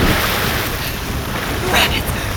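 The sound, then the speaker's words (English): Strong river rapids rush in a loud, continuous roar of churning water, with windy hiss mixed in throughout. “The rapids are too strong. They'll wash us down river.”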